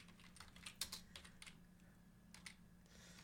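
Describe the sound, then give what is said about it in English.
Typing on a computer keyboard: many faint, irregular keystrokes clatter in uneven bursts with short gaps, heard alone without talk. “I've just got to type it in, because I forgot to do that, because I was busy listening to the tune.”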